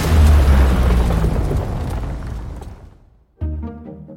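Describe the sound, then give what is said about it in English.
A cinematic movie-trailer boom: a loud, deep impact that rumbles and decays for about three seconds, then a second sharp hit with a ringing, tonal tail. “This would be a planet exploding or a building collapsing.”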